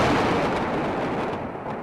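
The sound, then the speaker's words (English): Explosions from Israeli warplane air strikes in the Gaza Strip make a heavy, loud, rumbling roar that fades slowly over about two seconds, with no voices. “Israeli warplanes attacking targets after a rocket strike by Palestinian militants on southern Israel killed one person.”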